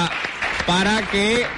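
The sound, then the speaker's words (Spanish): An audience claps for a group of young girls from a radio workshop who have just acted as journalists. The applause is a steady, even wash under a voice speaking over it. “yo voy a pedirles que le demos un aplauso aquí a nuestras primeras periodistas”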